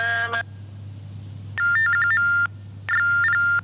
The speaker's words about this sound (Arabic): انقطع الاتصال، ناخذ اتصال آخر من معاي.